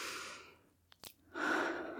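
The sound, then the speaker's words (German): A deep breath drawn in, heard as a soft, airy hiss near the end. A shorter breathy rush comes before it, then a quiet gap with a couple of tiny mouth clicks. “Atmet ihr eigentlich noch? Tief ein.”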